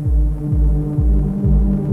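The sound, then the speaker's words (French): Deep, low throbbing beat like a heartbeat, five steady pulses evenly spaced under a constant hum, loud and without voices. “Vous entendez ce battement ?”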